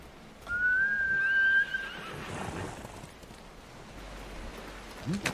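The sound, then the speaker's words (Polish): A horse neighs once: a loud, high whinny with a drawn-out call over about a second, then a falling tail, followed by quieter rustling and a brief faint sound near the end. “A gdzie jest mój konik?”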